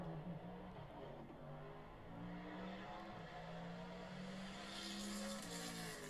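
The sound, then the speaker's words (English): A Bentley car with a loud exhaust passes by. The engine sounds as a faint, steady drone that swells slightly near the end. “There it is. There was that Bentley.”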